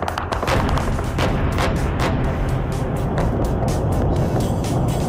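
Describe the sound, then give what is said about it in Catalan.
Gunfire and shelling at dawn in Beirut: many sharp bursts of shots over a continuous loud rumble, with no talk. “Aquest és el so d'aquesta matinada a Beirut.”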